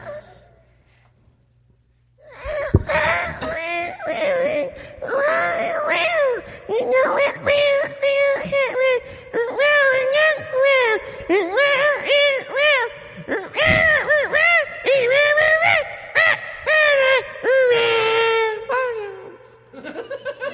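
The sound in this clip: A person imitates a cat, meowing along to song lyrics in a whiny, wavering voice that runs almost without pause after a quiet start.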